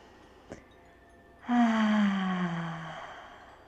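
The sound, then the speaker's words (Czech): A long, breathy exhale out through the mouth during a guided breathing meditation, sigh-like with a faint voiced tone, swelling quickly and fading over about a second and a half after a short quiet pause. “Nádech nosem a výdech pusou. Ještě jednou pojď. Nádech.”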